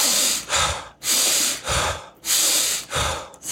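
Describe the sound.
Wim Hof-style power breathing in an active exercise, with deep inhales and exhales. Six loud, rushing, hissy breaths follow one another in a steady rhythm with short gaps between them.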